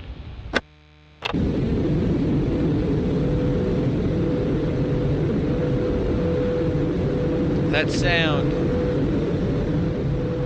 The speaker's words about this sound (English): That sound. That's the Sunday shuttle landing. Our last visitors before they shut the topiary down tomorrow.